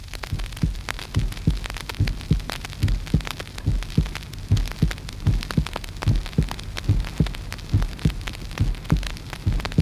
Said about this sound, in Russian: Прослушайте нормальные звуковые явления сердца.